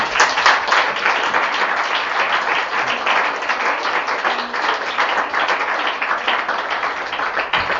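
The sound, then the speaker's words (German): Audience applause at a literary reading in Saal 3, a dense, steady wash of many hands clapping that stays loud and even from start to finish with no talk over it. “Ich begrüße Sie ganz herzlich im Saal 3 zur Lesung von Angelika Reitzer und bitte auch gleich um einen Applaus.”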